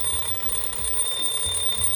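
An ordinary alarm clock's bell, fitted with a small computer and set off wirelessly by pressing a button, rings without pause as a steady, shrill, high-pitched clatter for the whole clip.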